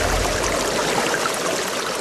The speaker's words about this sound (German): soeben setze ich das Pumpwerk für die neue Wasserversorgung unseres Dorfes in Betrieb.